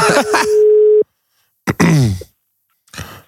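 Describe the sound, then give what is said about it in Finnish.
A steady mid-pitched telephone tone sounds for about a second, overlapping a voice, after an incoming call cuts the line. It stops abruptly, followed by short bursts of talking. “siinä katkesi, tuli puhelu, niin se katkasi.”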